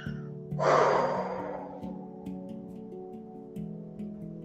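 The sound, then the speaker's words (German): One slow exhale during a guided breathing meditation: a soft, breathy rush that swells and then gradually fades, over a quiet music bed of sustained harmonic tones with gentle, regular pulses. “Und du hältst den Atem an, hältst ihn an, hältst ihn an und du atmest aus.”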